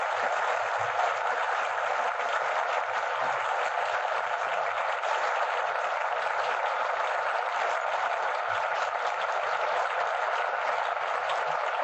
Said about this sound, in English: Your applause calls tonight's stars back to the footlights.